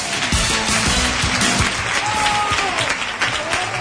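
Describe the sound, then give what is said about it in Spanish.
Recreativo de Huelva football supporters at an away match, clapping and cheering in a dense, even wash of crowd noise that holds steady for the whole short stretch. “Esta es la afición recreativista que hasta aquí han venido, hasta aquí se han desplazado desde Huelva para animar a los suyos”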